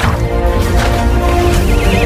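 A pony whinnies loudly and continuously, its shrill, quavering neigh filling the whole clip over a dense, noisy background.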